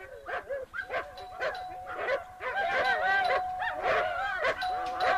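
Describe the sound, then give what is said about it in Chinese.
Two fierce large wolfdogs bark fiercely at a villa gate, with many loud, harsh, overlapping barks in rapid bursts that continue throughout. “狗叫得这么凶，门铃这么响，怎么还不来开门？”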